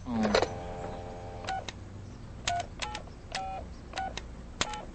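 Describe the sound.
A kitchen telephone is dialed in a quick series of short electronic touch-tone beeps with uneven spacing, after a brief opening sound. The beeps are clear over a low background hum.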